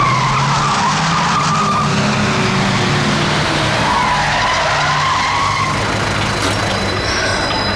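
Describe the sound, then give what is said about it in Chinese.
A car's tires skid as it brakes hard to a stop, making a sustained, loud rushing roar with wavering squeals running through it from start to end. No voices are heard. “我已经停车了。”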